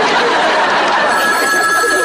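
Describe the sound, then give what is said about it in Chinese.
A telephone rings for an incoming call, a steady electronic tone entering about halfway through and holding over a dense, broad wash of background noise. “一个叫夏洛特博士的来电话找你。”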